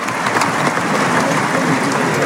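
Crowd ovation at a bullfight as a banderillero is saluted, heard as dense, continuous applause-like noise that stays loud and even throughout, with no voices standing out.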